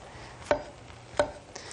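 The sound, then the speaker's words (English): Mushrooms are cut into pieces, the big ones quartered and the small ones halved: two sharp, evenly spaced chopping knocks, then a softer third tap, with no voices. “We'll just kind of cut them. Cut the big ones into 4, the little ones into 2.”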